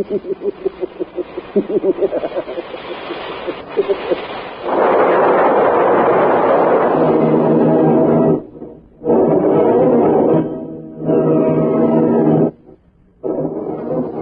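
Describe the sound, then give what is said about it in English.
A rocket ship crashing onto a planet: rattling pulses build into a loud, sustained roaring rumble, broken by a few short drops in level. “Rocket ship hits the planet.”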